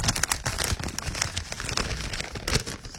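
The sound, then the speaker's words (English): A paper envelope is handled and torn open, giving continuous dry crinkling and crackling with a few sharper rustling bursts throughout. “Just got an envelope here.”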